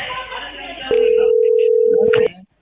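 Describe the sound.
A telephone tone from an incoming call: one loud, steady, even tone held for over a second, following a stretch of voices.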